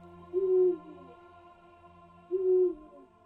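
A feral eagle owl hooting in the distance: two deep, drawn-out hoots about two seconds apart, each holding a steady low pitch, alone against a quiet background.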